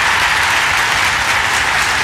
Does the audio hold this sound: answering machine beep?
no